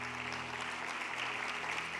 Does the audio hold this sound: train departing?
no